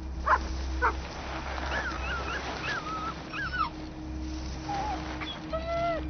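A dog near a sled whimpers and yips, giving a few thin, high whines and short cries over a steady low background hum.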